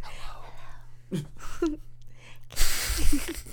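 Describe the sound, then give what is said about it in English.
Close breathing blown right at the microphone in ASMR style: soft murmured voice sounds, then a loud, airy rush of breath with a few brief voiced catches. “The listener just got breathed on the neck.”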